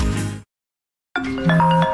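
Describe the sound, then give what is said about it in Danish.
A telephone rings unanswered, a customer's call to a business going unpicked. Steady electronic ringing tones start abruptly after a short silence and carry on to the end. “Det her er lyden af en kunde, der ringer forgæves, og som nu finder nummeret på en konkurrent.”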